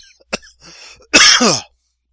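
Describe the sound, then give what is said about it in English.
A cough: a short sharp burst, then a longer, rough, throaty cough, loud and on its own. “Oh, man, sorry. Little cough there.”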